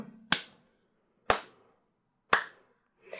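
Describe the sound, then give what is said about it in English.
Slow handclaps from an elf locked in a cage in a fantasy tabletop game scene: three sharp, evenly spaced claps about a second apart, each fading quickly into silence, with a fourth just beginning at the end. “And Delcy, the elf, claps slowly in her cage.”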